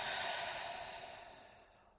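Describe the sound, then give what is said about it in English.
A long exhale during a guided meditation, a soft breathy rush of air that slowly fades over about two seconds. “Inhale in. I am deserving of kindness. Exhale out.”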